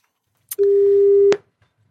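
A telephone call being dialed: one steady, mid-pitched electronic tone lasting under a second, with a short sharp click just before it and another as it cuts off.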